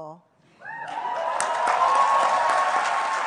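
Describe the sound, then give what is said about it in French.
Applause and cheering erupt at the UN as delegates conclude the ocean treaty agreement. A voice is heard briefly before a dense, steady roar of clapping swells in and holds at full strength. “cet accord conclu sous un tonnerre d'applaudissements à l'ONU et les félicitations de Renali, présidente de la conférence.”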